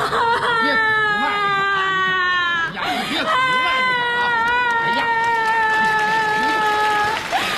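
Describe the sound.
A person cries in a military drama scene with two long, high, sustained wails, the first shorter, over a wavering sobbing undertone. The crying is loud, with a brief catch between the wails.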